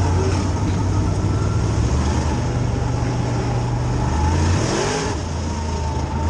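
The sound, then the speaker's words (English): A car accelerating as the driver works the clutch and shifts gears: a loud, steady engine drone, then near the end the engine note changes with a brief upward sweep in pitch. “You give it gas and the clutch. You're rolling, keeping the clutch down. Now he's gonna. Boom! Now he just shifted.”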